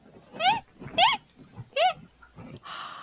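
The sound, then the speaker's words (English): A child imitates the call of a red ruffed lemur with three loud, harmonic, wailing cries, each swooping up and down in pitch, followed by a softer, breathy noise. “do you know if red ruffed lemurs make any noises?”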